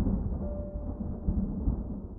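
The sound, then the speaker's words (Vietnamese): Thunder rumbles during a rainstorm over Bạc Liêu as a low, muffled, continuous roll that stays fairly even through the short stretch. “Sau hàng loạt tiếng sấm chớp nứt toạc cả bầu trời, một trận mưa lại rơi xuống đất Bạc Liêu. Một tiếng sấm vang dội nữa.”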